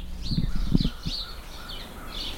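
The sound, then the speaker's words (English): House sparrows chirping outdoors in mid-morning, a run of bright, short high chirps repeating over a steady low background rumble, with a few soft thumps early on. “We have a lot of house sparrows around here.”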